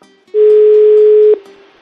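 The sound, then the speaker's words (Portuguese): Telephone ringing tone while a call is placed: a single steady mid-pitched tone held for about a second, loud and even, then cutting off to a low lingering hum. “Então vamos ligar para Tânia.”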